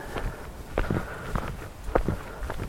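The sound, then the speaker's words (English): Footsteps of a walker climbing Walton Hill, a steady series of soft, scuffing steps in an even stride, each one a brief muffled thud, with no talk over them. “Just currently ascending Walton Hill for a bit of a walk.”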